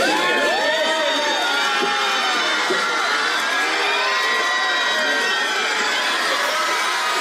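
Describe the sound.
A crowd outside the Hotel María Cristina in San Sebastián cheers Brad Pitt's arrival. Dense, continuous shouting, whooping and high-pitched screams stay loud throughout.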